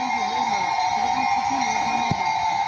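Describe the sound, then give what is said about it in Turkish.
Cowbells ring steadily on decorated cows during the traditional highland migration toward Katağcı plateau in Şalpazarı, Trabzon, a continuous layered metallic ringing that holds throughout. “rengarenk süsledikleri inekleriyle birlikte Katağcı Yaylası'na doğru geleneksel yayla göçünü gerçekleştirdi.”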